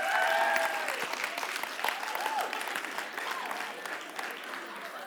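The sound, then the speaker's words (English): Audience applause answering a request to clap: a dense, sustained wash of many hands clapping, steady and fairly loud throughout, with a few voices mixed in near the start. “If you're born up to 1985, would you please signal by applause right now?”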